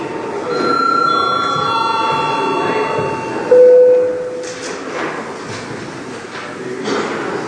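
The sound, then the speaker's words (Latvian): An electric bell rung in a parliament chamber gives a sustained ringing tone for a couple of seconds. A brief, louder lower tone sounds midway, over a low background of room noise. “Lūdzu, zvanu.”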